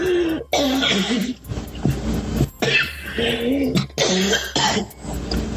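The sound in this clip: Coughing and throat clearing from someone choking after something went down the wrong way, several harsh, rasping bursts broken by short pauses.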